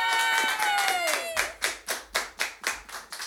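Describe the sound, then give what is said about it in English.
Audience clapping welcoming a bass player on stage. A drawn-out tonal sound slides down in pitch, then gives way to about eight steady, rhythmic claps in unison. “Put your hands together and make him feel very loved at home and here in the premises. Joe Pettit! Yay!”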